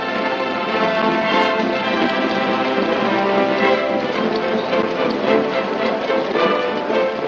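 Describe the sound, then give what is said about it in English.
Cavalry horses of a mounted regiment trot across a desert plain, troopers riding four abreast. Many hooves blend into a dense, steady clatter that holds at an even level with no break. “The regiment moves along at an easy trot, troopers riding four across behind their captains.”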